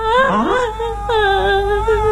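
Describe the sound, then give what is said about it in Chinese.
A woman crying aloud, with drawn-out, wavering wails that bend up and down in pitch, loud and unbroken, breaking into a sobbing cry partway through. “正聊着，传来一个女人的哭声”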